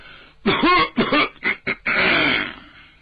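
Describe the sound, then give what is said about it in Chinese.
A person clears their throat and coughs, voiced by a performer imitating the sound: a few short, rough throat-clearing bursts, then a longer rasping cough that trails off. “石朗未曾说话，先弹嗽了两声，把嗓子眼儿打扫打扫”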